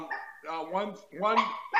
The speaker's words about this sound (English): they got dogs barking here.